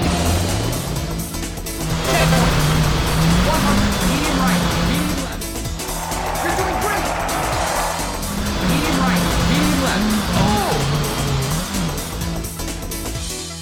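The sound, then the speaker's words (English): Rally car engine and tyres in a racing video game set on gravel and tarmac: a loud, continuous engine roar with repeated rising revs and gear changes, and tyre noise running underneath throughout. “to the hallowed gravel and tarmac of the Sega Rally universe. Is Sega Rally 2 a sophomore slump or a comeback of the year? Let's find out. 3, 2, 1, go!”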